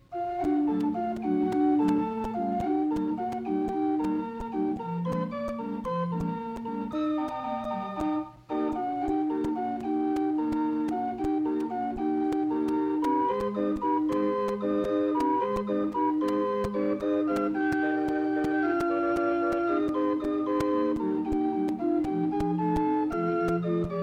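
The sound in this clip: A Wurlitzer band organ plays a light, bouncy calliope-style tune of the kind heard with amusement park rides. Bright piping notes carry a steady melody over a pulsing accompaniment, with a brief drop-out near the middle before the tune continues at full level.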